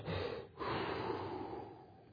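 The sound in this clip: A voice imitates a slow, deep breath taken while aiming a gun at a deer. The airy inhale and exhale is soft and quiet, with a brief break near the start.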